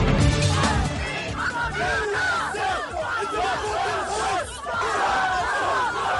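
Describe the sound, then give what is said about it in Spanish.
Massed protesters chant and yell at nationwide street protests in the United States after a presidential election. The dense, loud roar of many voices swells and surges continuously, with no pause. “Lo que están escuchando es el sonido de las protestas que, como les decíamos, se han sucedido por todo el país después de la elección de Donald Trump.”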